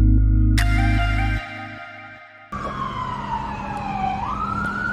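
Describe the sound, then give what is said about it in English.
Emergency vehicle sirens sound on a city street near 6th Street in New Westminster during a police response to a carjacking. The wail is loud and continuous, with sustained tones and a sweeping pitch, and no voices are heard. “What you're hearing there are sirens in New Westminster about 2.5 hours ago along near 6th Street.”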